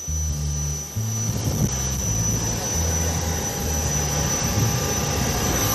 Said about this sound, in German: steigen wir mal ein ins Flugzeug jetzt. Ich glaube, man hört schon im Hintergrund.